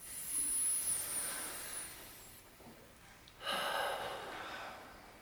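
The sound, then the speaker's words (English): A deep breath during a guided meditation: two long, soft breathy swells of airy hiss, the first easing off gently and the second rising sharply before fading. “I want you all to take a deep breath.”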